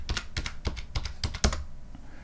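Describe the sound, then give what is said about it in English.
Fingers type a password on a computer keyboard in a quick run of sharp, clicky keystrokes. The keys clatter at an uneven pace before the sound stops and quiet follows. “Type in the magic command. Hit enter. Oh, and I'm connected. Type in my password.”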